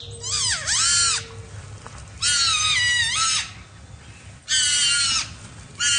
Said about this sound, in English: As she followed the sound, Jennifer encountered two porcupines who were engaged face-to-face. They both appeared to be adult-sized, but it was dark and hard to tell for sure. Were they fighting? Or were they mating?